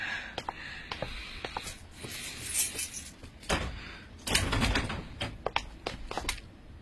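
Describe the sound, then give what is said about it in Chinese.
Keys jangle and a lock clicks as a door is unlocked and opened, giving a series of sharp metallic clicks and rattles with a few louder clunks in the middle and near the end. “你去把门打开。”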